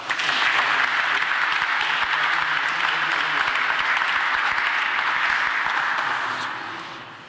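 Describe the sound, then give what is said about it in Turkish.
Audience applause at an exhibition opening ceremony: dense, steady clapping that holds at an even level for about six seconds, then fades out. “Alkışlarınızla.”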